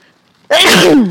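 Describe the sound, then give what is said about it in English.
A single loud human sneeze, brought on by hay, bursts in suddenly after a near-silent half second and holds strong for about half a second, breathy and harsh, with no talking over it. “I'm going to sneeze. I think it's all the hay.”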